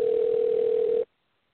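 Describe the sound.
A telephone dial tone sounds as a call is placed: one steady, unbroken tone holds for about a second and then cuts off abruptly, with no talking.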